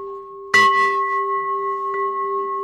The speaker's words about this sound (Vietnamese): Người thỉnh chuông phải đủ năng lực phát tiếng chuông đều, không nên tiếng nhỏ tiếng lớn.